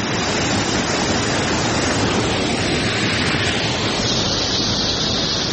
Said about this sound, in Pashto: د شنو باغونو په مینځ کې د خورا یخي پاکي او سپینې اوبو په لرلو مشهوره د مزار بابا په نوم چینه هر جمعه د سلګونو سیلانیانو کوربه وي.